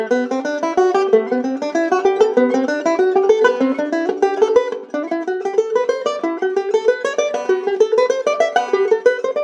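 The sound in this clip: A banjo is picked one string at a time in a jazz guitar style, with quick, evenly spaced notes running in repeated climbing scale phrases. It plays alone with no voices.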